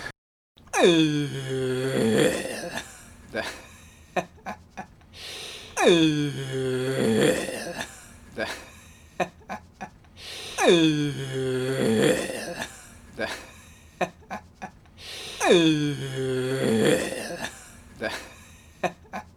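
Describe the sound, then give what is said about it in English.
A person talks while breathing in to make a robot-like voice: four similar strained, wheezy phrases come one after another, each opening with a drawn-out tonal moan and breaking into short choppy bursts. “I can talk like a robot if I breathe in when I talk.”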